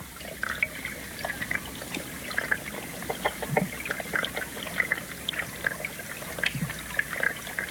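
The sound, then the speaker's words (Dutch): Underwater sound of the small river Dieze near 's-Hertogenbosch, captured with hydrophones: many irregular bubbly clicks, ticks and trickling pops over a constant low wash of moving water. “Marcel Maas stak zijn hydrofoons, zijn onderwatermicrofoons, in het water. Riviertje de Dieze bij 's-Hertogenbosch levert dan dit geluid op.”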